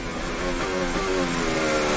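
Formula 1 cars racing close together, with Verstappen chasing Leclerc along a short straight: a steady, loud, high engine whine that holds unbroken for the whole moment.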